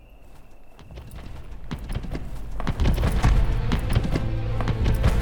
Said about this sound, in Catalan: De matinada, un genet galopa bosc a través.